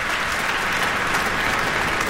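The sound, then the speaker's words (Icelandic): A concert audience applauding and giving a standing ovation: thick, continuous clapping from a large crowd, loud and even throughout, with no pause and no voices standing out. “hér linnir fagnaðalátunum og áhorfendur standa á fætur”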